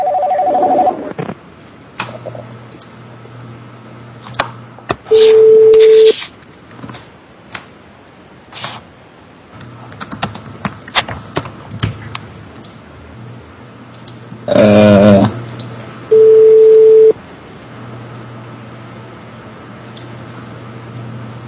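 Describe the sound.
Telephone dialing tones and a few longer, steady single-pitch tones come in separate bursts, with scattered clicks and handling noise in the quieter gaps between them.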